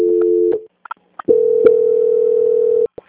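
Telephone line tones during a call transfer: a steady low tone for about half a second, a few faint clicks, then a longer steady tone of about a second and a half that cuts off with a click.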